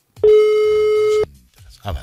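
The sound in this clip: A telephone ringback tone sounds on an outgoing call: one steady, even, buzzing tone about a second long, ending abruptly, followed by low, quiet noise.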